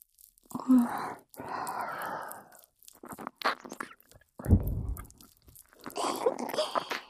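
Wet nibbling and licking mouth sounds close at the ear, coming in several soft bursts of smacking and slurping with short pauses between them. There is no talk.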